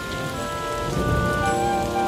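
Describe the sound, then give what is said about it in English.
Rain falling during a storm on an island, a dense, steady hiss of drops on surfaces that holds unbroken through the short stretch, with no voices. “Yet they continued on their adventure anyway, until a storm struck the island, forcing them to head back.”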